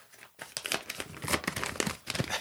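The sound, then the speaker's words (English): A paper envelope being torn open: a quiet run of crisp crinkling and ripping bursts lasting about two seconds, alone. “Okay, so opening up the envelope.”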